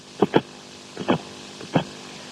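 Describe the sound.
A heartbeat heard through a doctor's stethoscope: three beats, each a soft double thump, spaced evenly and alone with no talk.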